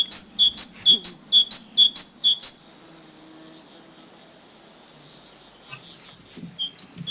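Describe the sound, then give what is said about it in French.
A great tit sings a bright, high, repeated two-note phrase in a quick, even rhythm, then falls silent for a few seconds before resuming with a few more notes. “Un chant bien connu, la mésange charbonnière.”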